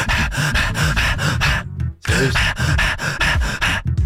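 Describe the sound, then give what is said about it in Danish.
A human voice imitates a German shepherd panting hard after a fast run: rapid, rhythmic, breathy pants, loud and continuous, broken by a brief pause midway before resuming at the same quick pace. “det, jeg tror, man kalder det halsende schæferhund. Og jeg har haft to schæferhunde. Men den lyd, en schæferhund laver, når den har løbet rigtig stærkt.”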